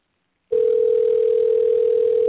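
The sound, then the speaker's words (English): Ringing tone of an outgoing Google Voice call to a cell phone: a single steady electronic tone switches on abruptly after half a second and holds unchanged, alone, to the end. “All right, let's give her a call.”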